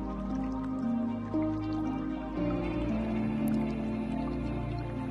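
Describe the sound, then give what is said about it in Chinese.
Spring water trickles and drips steadily, soft and low, beneath sustained droning tones. “纷繁不安的思绪都被流动的泉水冲洗掉了，”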